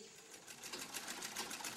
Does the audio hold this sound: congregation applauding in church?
no

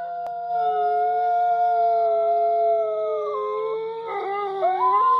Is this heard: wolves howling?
yes

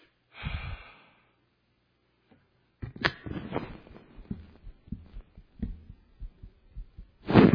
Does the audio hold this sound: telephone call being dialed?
no

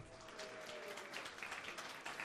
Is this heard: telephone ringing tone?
no

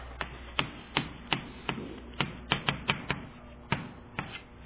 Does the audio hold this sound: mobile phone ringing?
no

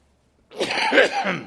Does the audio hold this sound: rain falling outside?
no

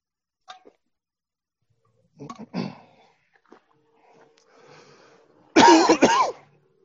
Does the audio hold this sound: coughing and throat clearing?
yes

